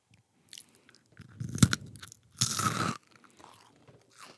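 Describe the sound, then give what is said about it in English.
Crispy food crunches as someone bites and chews. A few quiet, separate crunching bursts break an otherwise near-silent background, and no one speaks. “If you're allowed to eat, you gotta eat, like, things that sound good.”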